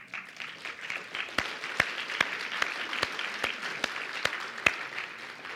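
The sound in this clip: Applause from an audience at a church gathering: dense, continuous clapping at a steady level, with a few sharper individual claps standing out, and no talk over it.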